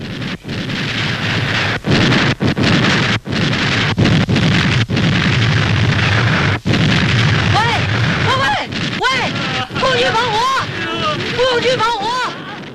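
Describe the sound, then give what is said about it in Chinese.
Artillery shelling pounds a hilltop position as a regiment fires: loud, continuous booming blasts merge into a dense roar, broken by brief gaps, with shouting voices rising over the din in the later part. “哎，咱们的炮真过瘾。 哎，这是炮兵团，给咱们搞清洁卫生呢。”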